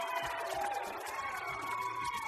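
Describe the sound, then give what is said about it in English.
A crowd cheers on a football field: a continuous, busy roar of many voices with no clear peaks, at moderate level. “But we have this group in front of us cheering, and then there's people down the sidelines here on our football field, and nobody's cheering over there.”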